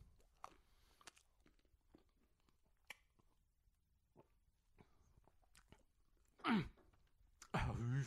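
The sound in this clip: Faint chewing on the last bite of almond-filled puff pastry: soft crunches and wet smacks tick along quietly, followed by a louder voiced sigh of pleasure.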